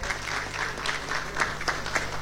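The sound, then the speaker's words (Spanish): Applause for a young rally driver being introduced: lively, steady clapping with scattered louder claps over a low, sustained hum. “Fuertes los aplausos para Gabriel Duarte Vera.”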